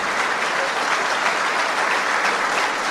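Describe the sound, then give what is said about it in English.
Applause from a CIA audience responding to Donald Trump's remark about his running war with the media: dense, loud, steady clapping that holds evenly from start to finish. “Because why in the fuck would the CIA... have any response to applaud that? ...applaud with glee about his war with media?”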